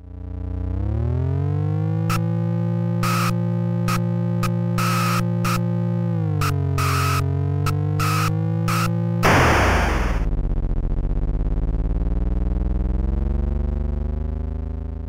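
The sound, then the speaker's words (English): Car drifting effect from the 1977 arcade driving game Super Bug: a loud buzzy synthesized engine drone with stacked harmonics, cut by repeated sharp electronic bursts, then a hiss of noise before the pitch sweeps up and down, alone. “there is a noise for the drifting. But I think they're just copy-paste noises from their other games.”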